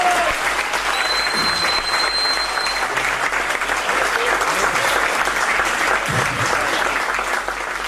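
Applause from a crowd rings out steadily, a dense wash of many hands clapping at an even level for the whole stretch without letting up.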